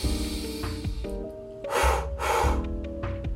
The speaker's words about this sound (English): Now inhale through the nose. Fill the body up. And now let 2 exhales out through the mouth. Inhale.